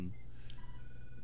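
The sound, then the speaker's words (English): An incoming telephone call reaches a radio studio as brief, faint electronic tones, thin and high in pitch. “There's a, we're getting a call, but I don't know. I don't know how to answer that.”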